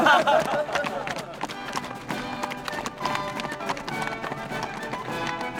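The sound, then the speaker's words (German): Hooves of two horses clip-clopping as they ride out of a fortress, a steady run of many quick hoofbeats that carries on for the whole stretch. “erhielt zwei neue Pferde und ritt mit seinem Herzbruder freudevoll zur Festung hinaus”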